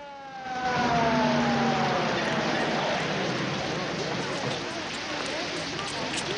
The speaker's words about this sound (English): One of them turns as a cop car pulls up.